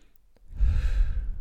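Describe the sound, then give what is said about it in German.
One deep, airy breath during a Wim Hof breathing exercise, beginning after a short quiet lead-in and swelling into a loud, rushing breath that lasts to the end. “Und noch fünf Atemzüge ein, aus, ein, aus.”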